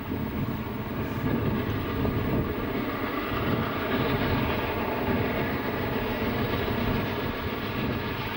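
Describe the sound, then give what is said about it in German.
A steam express locomotive, class 01 No. 1066 built in 1940 by Berliner Maschinenbau, runs briskly toward Lake Constance after its banking engine has left. It gives a dense, continuous rumbling roar that stays even throughout, with no separate chuffs standing out. “Die Schublok hat uns bereits in St. Georgen verlassen. Der steilste Teil der Strecke liegt damit hinter uns. Zügig fahren wir weiter Richtung Bodensee.”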